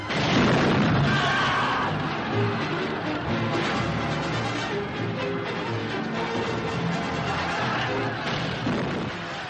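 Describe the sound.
Cannon fire sound effect in an audio drama: a dense, continuous rumble of blasts and crashes, loud and unbroken throughout, with no talk.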